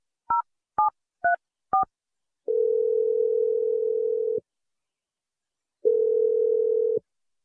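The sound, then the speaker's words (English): Four short touch-tone beeps in quick succession as a telephone number is dialed, followed by two long, steady, single-pitch tones separated by a silent pause while the line rings. “I'm dialing your number right now.”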